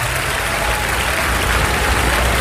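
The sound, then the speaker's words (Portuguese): Congregation applause after a sermon passage at a church service: a dense, steady wash of many hands clapping together, loud and continuous throughout with no talk over it. “Então vamos dar a melhor salva de palmas para esta palavra.”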